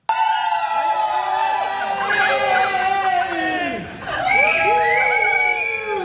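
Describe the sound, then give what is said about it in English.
A crowd whoops and cheers at an airport, welcoming home rowers back from crossing the Atlantic, with loud, rising and falling shouts and excited voices overlapping continuously. “Was that you whooping in the background?”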